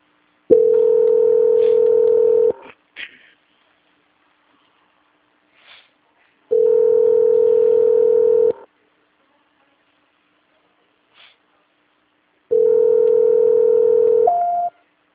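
Telephone tones play while a caller is on hold during a call transfer to a quality-control line. Three long, steady, loud tones of about two seconds each are separated by silences, with faint short beeps in between.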